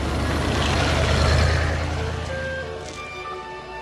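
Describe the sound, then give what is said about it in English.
A vintage luxury limousine driving along a wet, winding road, heard as a low engine rumble that swells and then eases, with a faint whine emerging toward the end. “A vintage luxury limousine drives along a wet, winding road.”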